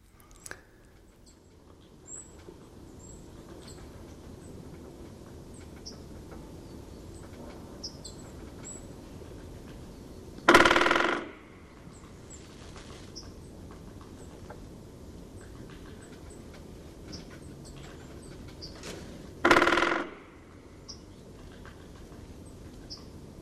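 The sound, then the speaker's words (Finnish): A woodpecker hammers on a decorative pole in two loud, short rapid drumming bursts about nine seconds apart, over a steady outdoor background with faint high chirps. “kuunnellaanko mä äänitin sen tikan.”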